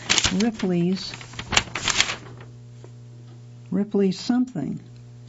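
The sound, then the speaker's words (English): A crisp, papery rustle and flap as a magazine page is turned, with a person talking before and after. “Okay, I'm turning the page now.”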